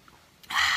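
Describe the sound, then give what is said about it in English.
A brief, loud slurp of a drink, a burst of wet, breathy noise that starts suddenly after near silence and lasts under half a second. “Let me finish my drink. It's actually really good.”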